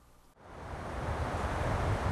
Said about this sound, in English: The waves are too rough for swimming on this day in Patong Beach.